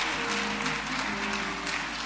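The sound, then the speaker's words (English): Congregation clapping hands in praise at a church service: a dense, steady wash of applause that holds at an even level for the full length with no gaps. “Let's give the Lord another hand clap of praise.”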